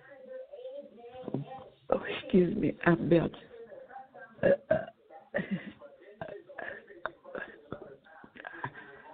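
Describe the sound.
A person burps, letting out one long, loud, gravelly belch and then several shorter ones, with talking between them.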